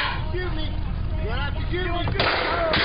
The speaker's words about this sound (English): The shot can be clearly heard on the video. The sound is muffled because of its position behind the truck.